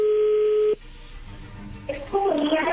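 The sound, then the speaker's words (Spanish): A telephone call rings through with one steady, humming ringback tone that cuts off. A quiet stretch of line noise follows before the call connects and a voice comes on. “Y entró la llamada.”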